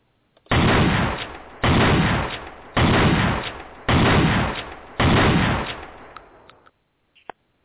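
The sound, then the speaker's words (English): A 12-gauge pump shotgun fires five loud, evenly spaced blasts, each with a booming tail that fades before the next shot, heard alone with no talk. “I think Joe said a double-barrel shotgun, but that was a shotgun nonetheless, 12-gauge pump, and they are quite effective at home defense”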